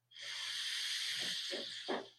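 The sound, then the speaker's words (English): A deep breath drawn in during a guided meditation: one long, soft, airy hiss lasting about two seconds, faint and alone. “One final breath in.”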